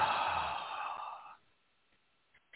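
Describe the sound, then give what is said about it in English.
A long, breathy exhale releasing a held deep breath during a guided meditation, loud at first and fading over about a second into near silence, with a faint click near the end. “we're going to take one more deep breath in and hold and release.”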